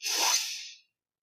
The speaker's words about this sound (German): Atme tief und vollständig ein.